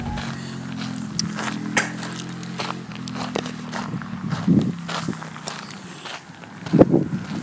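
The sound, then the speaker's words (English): Footsteps of a person out on a run, with many steady, rhythmic footfalls over a constant low rumble and no talk. “So I'm out for a run today. It's a beautiful day. Nice little run.”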